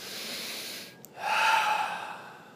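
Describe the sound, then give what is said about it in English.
Deep breathing in a meditation class: a soft, airy breath is followed by a brief pause and then a louder, fuller hissing breath that tapers off slowly, with no voices. “take these deep cleansing breaths.”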